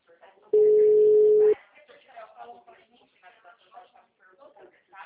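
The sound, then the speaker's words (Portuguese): A single steady electronic telephone tone on an unanswered call sounds for about a second, then stops and gives way to talk. “acabou de falar comigo, agora não tá atendendo.”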